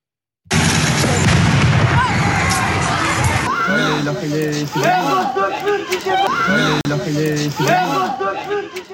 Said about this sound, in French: Écoutez simplement le bruit que fait une grenade de désencerclement. On est à Lens à ce moment-là. On a le bruit. On n'a pas l'image, mais on a le bruit.